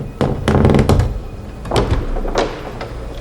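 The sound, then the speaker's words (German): A coffin lid opening amid fog, heard as a few hollow wooden thunks and knocks spread across the moment, fairly loud and alone without talk. “Ein Sarg formiert sich. Ihn zu öffnen überlasse ich gerne dir, Bob. Da, da liegt bestimmt ein Vampir drin. der Deckel öffnet sich.”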